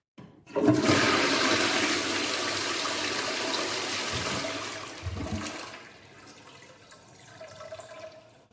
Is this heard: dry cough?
no